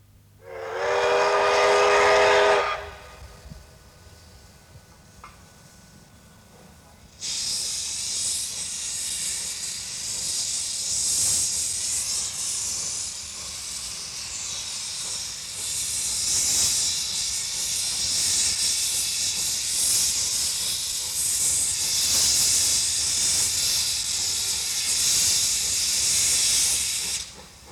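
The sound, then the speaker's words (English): A Japanese locomotive lets out a short, bright steam whistle, then rumbles quietly for a few seconds. A loud, roaring hiss of steam follows and continues steadily to the end. “An earth-shaking, dynamic sound. That's the sound of a Japanese locomotive.”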